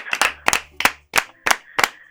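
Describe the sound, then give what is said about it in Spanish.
Clapping from an audience at a live spoken stage performance comes as a steady series of sharp, separate claps in an even beat, with brief quiet gaps between each burst. “gracias por los aplausos”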